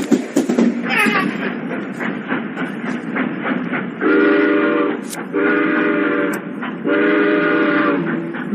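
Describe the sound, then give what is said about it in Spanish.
A train at a station in León rumbles and chugs, then blows three long, loud, steady whistle blasts in a row. “Este es el tren”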